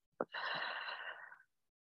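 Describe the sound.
A single long, breathy exhale during a deep-breathing exercise. It is quiet and steady, lasts just over a second after a brief soft click, and then falls to silence.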